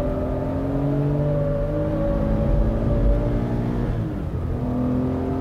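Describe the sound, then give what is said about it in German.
A racing car engine roars steadily on a training run along a winding road with tight hairpin bends, its rich droning tone shifting in pitch and dipping briefly near the end before building again. “runtergebremst, eine enge Serpentine, hochgeschaltet, wieder voll beschleunigt und runtergebremst auf eine sehr enge Kurvenpassage zu.”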